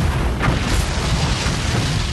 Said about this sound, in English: to describe Musk, and it ends with an explosion